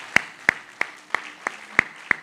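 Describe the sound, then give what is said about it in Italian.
Members of an orchestra applaud their concert audience with slow, evenly spaced claps, seven sharp, bright strikes in a steady rhythm over a quiet background. “Grazie, un applauso lo facciamo noi a voi.”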